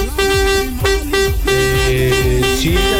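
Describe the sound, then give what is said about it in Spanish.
A vuvuzela horn blows loud, steady droning blasts, repeated several times over a busy, dense mix of other sound. “Ya sabemos que tienes una bubucela.”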